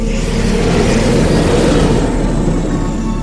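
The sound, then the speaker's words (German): Quad bike engines as two riders drive their quads in. A loud, continuous engine rumble with broad noise runs at an even level throughout, without distinct revving peaks. “Zwei Mädchen fuhren auf ihren Quads in den Teufelszopf ein.”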